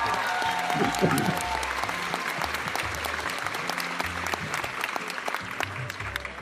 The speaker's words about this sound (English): Thank you, studio audience. I'm assuming that was to appreciate how I didn't screw things up.